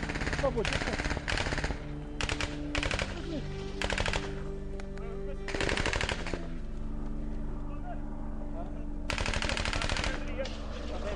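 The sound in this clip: Rapid machine-gun fire out in open fields, loud clattering bursts of many shots that repeat throughout, with short pauses between volleys.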